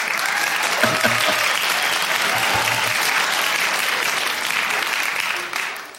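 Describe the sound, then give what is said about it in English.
Applause from a live audience, dense and steady for about five seconds at full strength before tapering at the end, with no speech over it. “I think we deserve a round of applause.”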